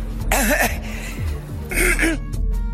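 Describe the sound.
A person coughs and chokes in two loud, strained bursts with wavering voiced pitch. A quieter gap separates the bursts.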